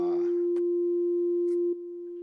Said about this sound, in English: And you turn this dial and you get different pitches all the way through the tone spectrum or the frequency spectrum.